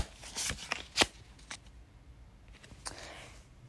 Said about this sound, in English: Hold on, let me pull another card.